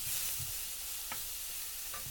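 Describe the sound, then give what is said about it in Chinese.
Small oyster mushrooms, freshly fried firm tofu and minced tofu skin are stir-fried in a pan, giving a continuous sizzling hiss with a few soft scrapes of stirring. “接着放入袖珍菇，翻炒几下，再放入刚炸好的老豆腐和百叶豆腐末。”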